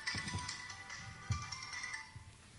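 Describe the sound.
A mobile phone ringtone goes off during a lecture course session. A steady, melodic electronic tone holds faintly throughout, with a few soft low thumps beneath it.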